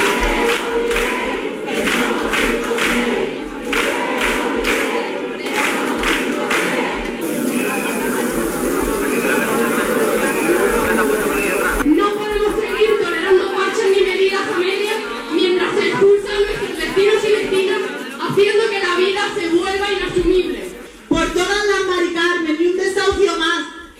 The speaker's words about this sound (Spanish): Y seguimos recorrido en Huelva, concentración contra el negocio de la vivienda a las puertas de la subdelegación del Gobierno con estos sonidos.